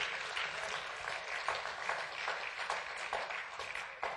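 A church audience applauds in a dense, steady patter of many hands clapping together. The applause is fairly soft and continues without a break, with no voices standing out.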